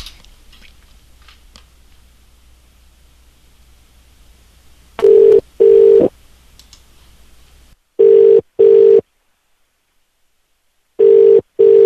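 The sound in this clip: An outgoing phone call rings out to an unknown number: faint clicks and line hiss give way to a steady mid-pitched ringback tone in three paired bursts separated by silence, with no voices.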